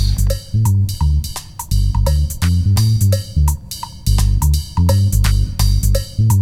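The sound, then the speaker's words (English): A looped two-bar bass line plays with drums: deep, punchy bass notes over a repeating groove of kicks, snare hits and bright cymbal taps, loud and steady with no voices. “We now have a 2-bar bass line. And with the drums, it sounds something like this.”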